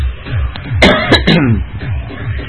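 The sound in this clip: A person with a hoarse, strained voice coughs a short run of harsh, rasping bursts in quick succession, loud over a low pulsing background.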